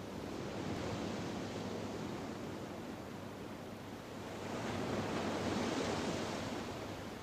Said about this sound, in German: Sie kehren zurück auf die Terrasse vor das dunkle Meer.